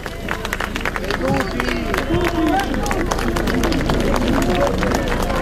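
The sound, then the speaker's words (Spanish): A crowd claps and cheers as the Pope arrives by car, a dense, busy mix of clapping and many overlapping voices that stays fairly level for several seconds. “Aquí está el aplauso.”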